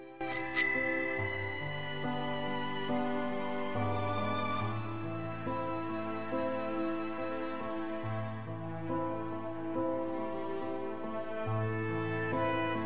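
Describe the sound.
A bicycle bell rung: a bright, metallic ring bursts out near the start, then sustained instrumental music with low held notes carries on alone.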